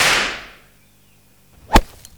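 A golf club strikes a golf ball on a course, a shot that lands next to the pin. It is a single sharp, whip-like crack that stands out loudly against near silence.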